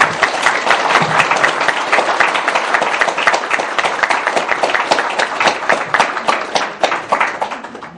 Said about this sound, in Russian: Ребят, давайте похлопаем даму.